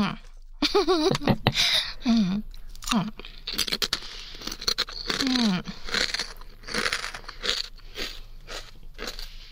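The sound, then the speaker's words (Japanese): Kata-age hard-fried potato chips crunch loudly as they are bitten and chewed, with repeated crisp, crackling bursts. People talk over and between the bites. “これは美味しい食べ物だ。これ初めて食べた時に、なんだこれはうまいと思った堅揚げ。”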